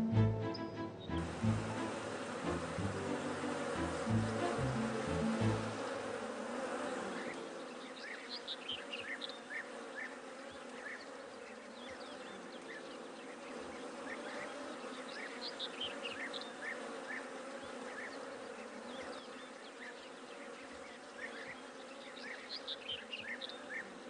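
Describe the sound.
Honey bees buzz in a steady, faint drone from kept hives, with brief higher-pitched whines of individual bees passing through.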